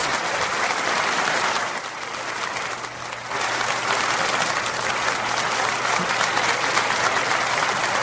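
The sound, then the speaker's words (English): Dense audience applause after a song performance, a steady wash of many hands clapping that dips briefly before swelling again and continuing at full strength to the end. “Just clapping.”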